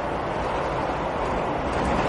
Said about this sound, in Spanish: Poco después va con Milton en el metro.